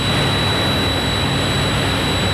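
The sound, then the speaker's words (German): A steady, loud roaring rush from the turning blades of a giant 150-metre wind turbine in Dersum, constant and unbroken with a thin high whine running through it and no clear rhythm. “Ich gucke 150 Meter hoch, ein riesiges Windrad, die Schaufeln drehen sich und fallen uns hoffentlich nicht auf den Kopf”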